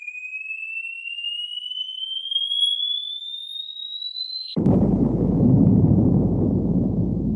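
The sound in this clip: A falling bomb whistle with a Doppler pitch shift: a thin, steady tone climbs slowly in pitch for several seconds, then cuts abruptly into a loud, sustained, low rumbling blast.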